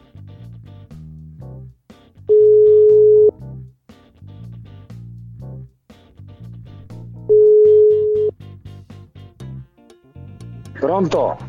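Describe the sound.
Steady electronic telephone tones sound while a call is being placed: two sustained, even mid-pitched beeps of about a second each, spaced several seconds apart, with people talking before, between and after them.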